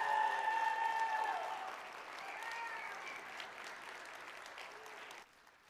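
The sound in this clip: A church audience applauds as three guests come onto the stage, a dense, steady clatter of clapping that eases slightly before stopping abruptly near the end.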